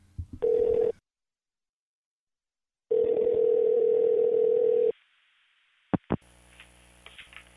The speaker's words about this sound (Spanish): A ver, el teléfono está aquí. Márcamelo un segundito, ¿vale?